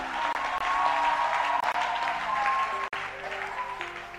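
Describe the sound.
An audience applauds to acclaim God during a church service: dense, steady clapping fills the whole stretch, with faint voices or tones running underneath and no distinct speech.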